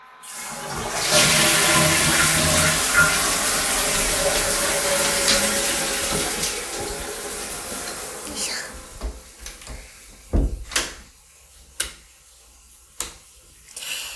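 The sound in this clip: A toilet flushing sends out a loud, rushing roar of water that holds for several seconds, then fades into gurgles and a few sharp clicks and knocks as the tank settles.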